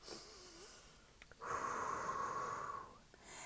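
A deep breath: one long, steady inhale lasting over a second with a slightly whistly tone, preceded by softer breathing and faint snort-like sounds, with no talk.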